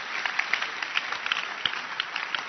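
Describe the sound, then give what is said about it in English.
A church audience claps their hands together in fast, many overlapping claps, fairly faint but steady throughout. “Clap your hands for our professor.”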